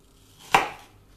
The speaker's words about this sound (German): Und in der Zwischenzeit schneiden wir noch schnell eine halbe Zwiebel klein.